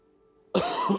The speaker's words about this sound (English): you'll have to forgive my coughs, but I have to do it.